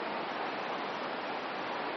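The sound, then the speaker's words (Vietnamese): Steady evening rain falling, a dense, even hiss that holds at a constant level throughout with no breaks or distinct drops. “Cho nên á, tối hôm nay mưa nữa nè,”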